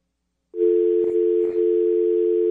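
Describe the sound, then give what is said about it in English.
Telephone dial tone as someone dials a phone: a steady, buzzing hum that starts abruptly, with two soft clicks partway through. “He's trying to dial a phone.”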